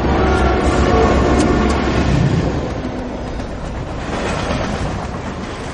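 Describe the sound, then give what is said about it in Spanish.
Train passing with a loud, steady rumbling roar and rattling of wagons, easing off slightly as it continues. “Un tren se aproxima y pasa a través del chico.”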